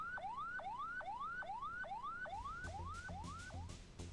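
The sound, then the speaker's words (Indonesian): An ambulance siren pattern used for non-emergency patient transport, with repeated electronic whoops that each climb in pitch and then snap back down, about every half second. The siren is steady, loud and alone. “Jenis sirine kedua, ambulans sedang membawa pasien yang tidak darurat. Bunyinya seperti ini.”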